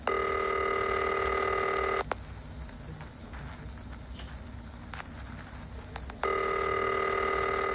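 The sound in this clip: Telephone signal tone announcing an incoming call on a call-in show: a loud, steady electronic tone for about two seconds, a gap of faint background hiss, then the same tone returns.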